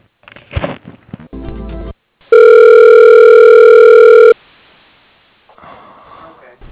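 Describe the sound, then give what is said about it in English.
A phone call is transferred to voicemail over a narrow, thin-sounding phone line: a loud, steady electronic tone holds for about two seconds between short bursts of muffled line noise and faint breathy sounds. “I can put you through to his voicemail, and if he's interested, he'll give you a call back.”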